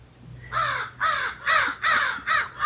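Crows give five harsh, evenly spaced caws in a steady rhythm, each one a loud, raspy burst standing clear against a quiet background.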